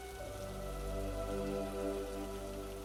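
Steady rain falls and patters on a surface, a continuous, even hiss of many drops that holds at a constant level throughout, with no voices.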